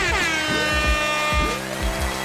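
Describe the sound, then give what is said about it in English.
A blaring air horn sound effect lets out a loud, sustained, brassy blast with layered tones for about a second and a half, while several deep booming hits pulse underneath. “Let's get a little air horn action going for that.”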